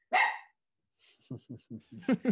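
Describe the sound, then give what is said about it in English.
A dog barks in a quick run of many short, yappy barks that climb in loudness toward the end, after a brief voice calls out at the start. “And there's the dog.”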